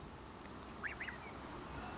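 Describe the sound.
Geese give a couple of short, soft contact calls close together, faint over steady background noise.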